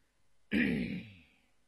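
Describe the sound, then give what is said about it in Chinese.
A light cough or throat clearing by an official in a courtroom scene, after reading a complaint: a single short, fairly loud burst that quickly fades into quiet. “一直到细细看完了那状纸，李福方轻咳了一声”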